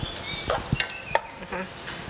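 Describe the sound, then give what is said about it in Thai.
Pork being stir-cooked in a pan with a little added water: scattered scrapes, clicks and light clatter from stirring, irregular and fairly quiet. “อาจจะเติมน้ำในการลวนได้นะคะนี่ใส่น้ำไปเล็กน้อยนะคะหมูจะได้ไม่แห้ง”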